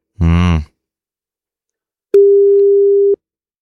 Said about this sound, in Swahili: Anakata simu, in fact ametu block, manake simu haiendi.